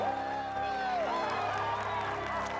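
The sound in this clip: Excited crowd of former GlobalDyne employees cheering as their pensions are repaid, a dense, continuous roar of voices with high whoops and shouts that holds steadily throughout.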